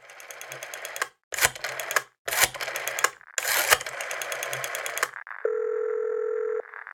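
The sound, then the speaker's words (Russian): Telephone number being dialed: a few bursts of rapid mechanical clicking separated by short pauses, followed by a steady, buzzing mid-pitched line tone that holds for over a second before cutting off. “Сразу догадался, набрал номер.”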